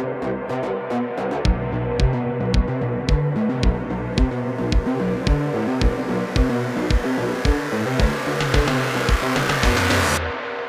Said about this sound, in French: Le trajet se poursuit pour encore quelques minutes et finalement le véhicule s'engage dans une rue industrielle bordée par des